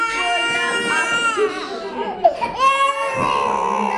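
A very fussy baby cries in a shelter dining room while being put into a high chair, making continuous wavering wails that break into sobs and whimpers.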